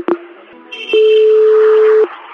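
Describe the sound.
Telephone dialing tones on a call: one brief beep, then a single long, steady mid-pitched tone that holds for about a second before cutting off.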